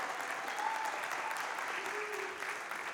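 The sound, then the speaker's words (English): A church audience applauds, a dense, steady patter of many hands clapping that holds an even level throughout. “Let's give them another hand.”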